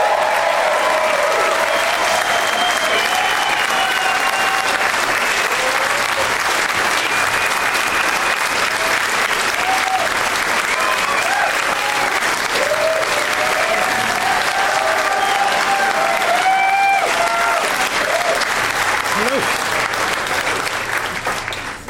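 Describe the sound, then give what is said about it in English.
Sustained applause from a show audience giving a standing ovation as three guests walk out: dense, steady clapping that holds loud for about twenty seconds and eases slightly at the very end. “Standing ovation, you guys. That was very nice.”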